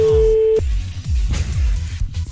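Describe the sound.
Ringback tone of an outgoing telephone call: a steady single-pitch tone sounds for about half a second, then cuts off and gives way to voices.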